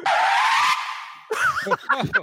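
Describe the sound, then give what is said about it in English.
Tires squeal in a hard-braking skid: a loud, wavering screech over rushing noise that lasts under a second and cuts off abruptly. Several voices then talk. “I thought that was me slamming on the brakes before I crashed into a wall.”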